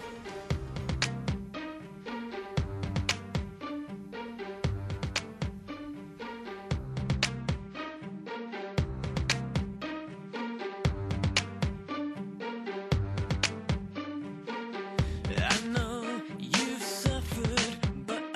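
Rock music plays loudly on its own, with heavy drums driving a steady beat under dense, layered guitars and keyboards.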